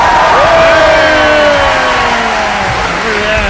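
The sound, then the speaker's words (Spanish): An audience applauds and cheers in a loud, continuous roar of clapping, with whoops and voices rising and sliding in pitch above it throughout. “Aplauso para la señora López. Aplauso para la señora López. ¡Qué bueno!”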